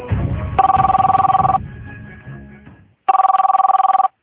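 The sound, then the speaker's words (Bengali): A telephone rings in two bursts of rapid, trilling electronic pulses, the first over a low background rumble, the second alone after a short silence. “এক সপ্তাহ না যেতেই মঞ্জিলার phone”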